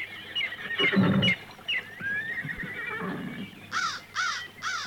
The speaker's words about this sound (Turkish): İşte ata da yaklaştım. Dur kınalım. Ne olursun dur. Yavaş.